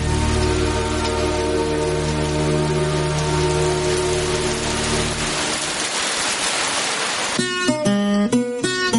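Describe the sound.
Rain falls over a cemetery as a loud, steady hiss of drops through most of the stretch. It thins toward the end as a few sustained tonal notes come in.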